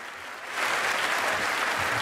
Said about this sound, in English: Kyle reluctantly joins in the applause.